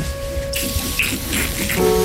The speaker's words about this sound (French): Tu fais un peu d'eau sur le visage?